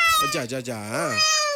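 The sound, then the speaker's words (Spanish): Kitten meowing in a few drawn-out, high-pitched calls that waver in pitch, the longest one swelling and then falling away. “¿Cómo le vamos a poner a la gatica? A la gatica, vea, es que no sé cómo decirle.”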